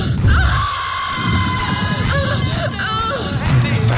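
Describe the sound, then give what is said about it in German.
Women screaming and shrieking with joy in a crowd at a club: loud, continuous high-pitched cries and squeals over dense crowd babble, with no pause. “Schrei vor Glück. Die Weiber drehen am Rad.”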